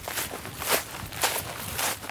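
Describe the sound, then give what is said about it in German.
Footsteps on a hill leading up to a hiking trail in Birtan: a few steady, evenly spaced crunching steps at a walking pace, with no talking. “In Birtan laufen wir einen Hügel hoch zum Wanderweg. Dann geht es durch einen Wald noch weiter nach oben.”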